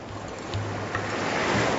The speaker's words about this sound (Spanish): Parece que es el lugar más ventoso de África, y tengo que aferrarme al trípode como si me fuera la vida en él.